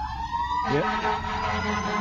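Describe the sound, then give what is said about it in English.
A fire truck siren wails loudly as the truck passes by a car dealership lot, its tone sliding down in pitch partway through and continuing as a steady wail over low traffic rumble. “There goes the fire truck on by. He's going to the next lot down to take care of their barbecue because they got their stuff a little bit hot.”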